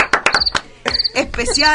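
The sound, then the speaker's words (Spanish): Crickets chirping in short, high-pitched trilled bursts that repeat at an uneven rhythm, mixed with louder, lower clattering and rumbling sounds. “Especial animal hoy día, vida salvaje. Hoy los grillos.”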